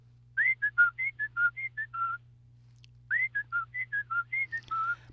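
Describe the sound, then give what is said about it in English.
A person whistles an imitation of a Carolina Wren's song: two bursts of quick, clear, slurred notes separated by a short pause. The whistling is fairly loud over a steady low hum, with no talking. “you did a very good job of imitating the song of the Carolina Wren.”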